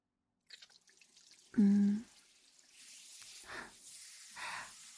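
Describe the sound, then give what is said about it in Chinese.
Faint running water rinses a customer's hair at a hair wash, coming in soft, hissing surges that rise and fall. “水温刚刚好，先生，先坐在这里吧，我先帮您用水冲洗一下。如果太热的话，请告诉我。”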